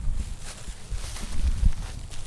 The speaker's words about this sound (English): We walk towards them to get a closer look.